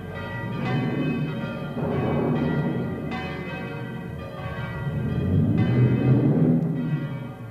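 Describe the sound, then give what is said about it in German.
Church bells ring out a storm warning in a village as a thunderstorm approaches, a loud, dense clangour of overlapping metallic tones with a steady series of fresh strokes swelling through the ringing. “Und in Schelmberg hoben die Glocken das Wetterläuten an.”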